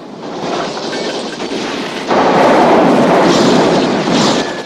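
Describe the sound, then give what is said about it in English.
Police officers fire rifles and buckshot into a house in a loud, dense barrage. The blasts blur into a continuous roar that grows heavier and louder about halfway through. “The officers spray bullets around and pepper the house with buckshot.”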